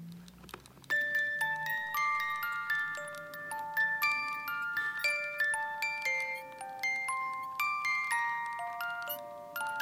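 A small music box plays a slow melody of bright, plucked metallic notes, each ringing out and decaying before the next, beginning after a brief low murmur at the start.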